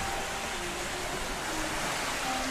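Calm sea waves at a small coastal town make a continuous, even wash of surf noise with no distinct crashes or breaks.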